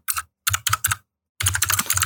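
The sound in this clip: Typing on a computer keyboard: quick bursts of crisp keystroke clicks, a short run, then several separate taps, a pause, and a longer, denser run of keystrokes, heard alone without talk.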